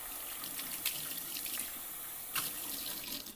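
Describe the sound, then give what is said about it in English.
A running tap pours steadily while a bottle part is rinsed under it: a broad, even hiss of water with a few brief louder splashes and no voices. “I'm going to take the thing out of here, rinse this out.”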